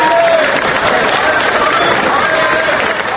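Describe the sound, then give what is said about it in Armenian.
Protesters gathered before a parliament session clap to greet arriving deputies, a loud crowd roar of hands and murmuring voices with talk running over it. “Նիստից առաջ հավաքված ցուցարարները ծափողություններով դիմավորեցին ժառանգություն և դաշնակցություն խորհրդանական խմբակցության պատգամավորներին։”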